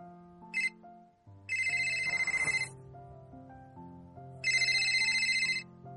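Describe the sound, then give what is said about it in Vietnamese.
A mobile phone on a tea table rings with its default ringtone, sounding a few bright electronic bursts of melody over soft, steady music. “Chiếc di động trên bàn trà bỗng vang, là nhạc chuông Mặc Định.”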